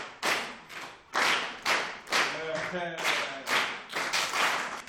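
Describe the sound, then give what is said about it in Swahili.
A class of pupils clapping their hands for a classmate: a few evenly spaced bursts of group claps in a steady rhythm, with children's voices briefly chiming in partway through. “Haya, mpigie makofi.”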